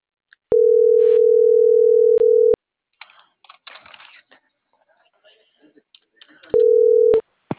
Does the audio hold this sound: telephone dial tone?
yes